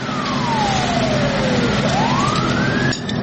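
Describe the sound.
A fire engine siren wails as the truck arrives at a building fire, sweeping slowly down in pitch and then back up. It is loud over a steady engine rumble and cuts off near the end.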